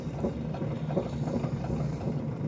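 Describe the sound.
A potter's wheel spins while red clay is shaped by hand into a mug, giving a steady low motor hum with faint rubbing texture throughout and no talk.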